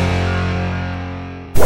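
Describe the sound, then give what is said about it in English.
A whip-crack sound effect with Western music marking a ranch segment on a morning radio show: sustained tonal music fades slightly, then a sudden loud, sharp crack hits at the very end. “There goes the whip and the Western music. That means it's Ranch Roundup time on the Wake Up with the Wolf Show.”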